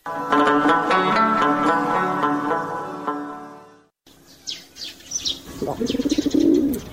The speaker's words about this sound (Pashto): ته دیوال په سر کوترې، ته څنګه غومبر وکې؟